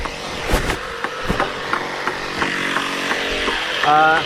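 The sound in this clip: An electric generator drones steadily throughout, a constant mechanical hum beneath people talking.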